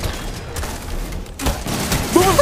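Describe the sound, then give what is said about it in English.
Gunfire in the video game Destiny 2: many shots and booms blend into a dense, noisy barrage that continues throughout, with a louder burst near the end. “Oh no, I got shot from behind.”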